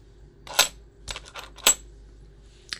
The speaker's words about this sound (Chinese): 现在呢，我在你屁股上放一枚硬币